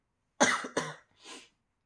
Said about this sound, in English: this cough. It will not leave my body. It's married to me. I'm in a non-consensual relationship with this goddamn cough.